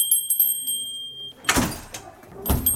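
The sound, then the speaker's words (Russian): A small bell announces a visitor arriving at a school, its bright, high ringing tones lingering for about a second before giving way to a couple of broad, dull bumps. “О том, что в школу «Колокол» пожаловал посетитель, возвещает колокольчик.”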